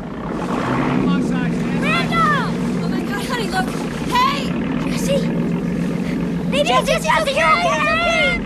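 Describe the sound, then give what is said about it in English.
A Coast Guard boat arriving on the water, its motor a continuous low, steady drone running beneath overlapping excited voices calling out. “The Coast Guard boat arrives.”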